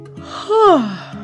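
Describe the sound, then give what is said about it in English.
A big, drawn-out yawn voiced by a storyteller in a bedtime tale, a single breathy sound that rises in loudness and then slides smoothly downward in pitch before fading. “When she finally climbed under her big fluffy blanket, a great big yawn”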